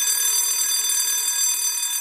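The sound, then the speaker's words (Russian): A school bell rings to call pupils into class, a steady electric ringing that holds loud and unbroken for about two seconds, with no pause and no voices. “Но тут прозвенел звонок, и нам пришлось идти в класс.”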